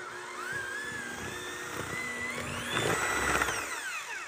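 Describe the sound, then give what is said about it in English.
An electric mixer's motor whines as it beats a nearly mixed batter. The high, steady hum steps up in pitch partway through, turning louder and rougher, then eases off. There is no talking. “Okay, we're gonna mix this again, not very long because it's almost totally mixed already.”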